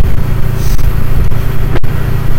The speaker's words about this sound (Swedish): Jag ska försöka få i femmans växel i alla fall då, så jag kan ligga någonstans runt 70 som lagen så påbjuder.